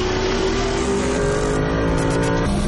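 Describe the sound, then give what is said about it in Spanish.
Loud engine roar from a red Ferrari accelerating hard on a motorway while racing another car, a sustained, dense growl that holds steady throughout. “Sonríe satisfecho pero el Ferrari acelera más y vuelve a colocarse a la par.”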